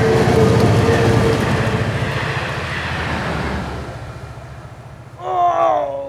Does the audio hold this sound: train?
yes